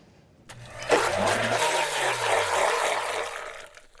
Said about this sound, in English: I'm gonna add about a cup of sugar to the blender with the booze. And then because I put lemon lime soda in the kids, just about a fourth a cup. All right, now I'll get the lids on real tight. And then it's a race to the finish.